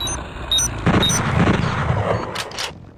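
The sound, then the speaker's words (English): Manual bolt gun firing in an audio-only first-person shooter video game: a few booming shots with rumbling tails, preceded by short, high electronic beeps. “There are first-person shooters like Shades of Doom, which is inspired by the Doom franchise. Your manual bolt gun.”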